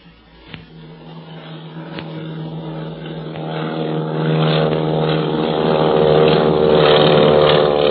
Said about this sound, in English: Takeoff. You can sure tell Barney learned how to fly in the Army Pursuit Squadron. Hey, look, he's banking. He's going to come back and circle over us.